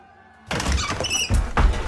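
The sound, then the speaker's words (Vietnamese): A crowd smashes a house door open in a village: after near silence, a sudden loud crash breaks in, followed by further heavy banging and knocking. “Y Điêng đứng bật dậy khi mà từ bên ngoài đám đông vừa đập bung cửa nhà Mi Thư sộc vào”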